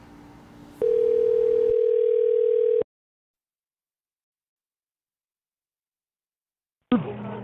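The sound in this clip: A telephone line rings, heard from the caller's end as a single steady mid-pitched tone lasting about two seconds, then silence, then a brief burst of sound as the call is picked up.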